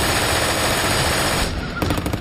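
A German 7.92 mm belt-fed machine gun fires in a loud, unbroken stream of rapid shots, the rattle running continuously before breaking into a few separated final rounds.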